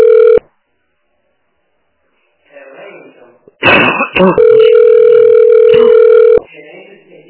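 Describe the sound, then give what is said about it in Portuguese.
A telephone call is dialed: a short burst of dial tone, a pause, some handling noise, a quick run of keypad tones, then a long, loud, steady line tone before it cuts off. “Ah, eu vou ligar pro Roberto.”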